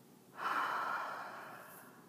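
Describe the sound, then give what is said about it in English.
A single deep breath through the nose during a guided breathing exercise, heard alone as one sustained airy rush that begins abruptly and slowly tapers off. “take a nice deep breath in through your nose, nice power breath in, and exhale,”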